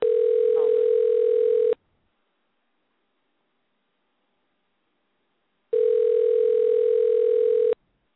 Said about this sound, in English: you're gonna hear a ring. I'm calling one of the